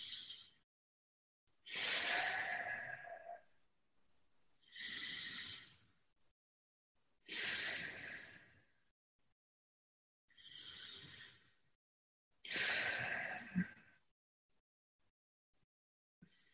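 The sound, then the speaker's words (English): Three slow, deep breaths taken as a demonstration. Each breath is a loud, airy rush of air drawn in and pushed out, and the long breathy bursts alternate with short stretches of silence. “Let me just show you how easy it is. I'm going to take 3 deep breaths.”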